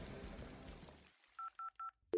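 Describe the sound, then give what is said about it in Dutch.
Touch-tone keypad dialing of a telephone number: three short, evenly spaced beeps come after a fading wash of hissy noise, then a louder steady tone starts abruptly at the very end. “Ik bel ervaren rocker Tony Peroni voor meer rocksterrengedrag inspiratie.”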